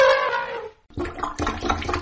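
Wet gurgling and sloshing as a plunger works at a clogged drain: a sustained slurp, a brief silence, then a run of squelching, watery pulses.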